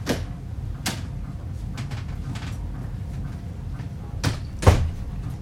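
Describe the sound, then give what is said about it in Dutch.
A door being opened, heard as a few sharp clicks and knocks spread over several seconds, with a louder thud near the end over a low background rumble. “Nou, open doen natuurlijk.”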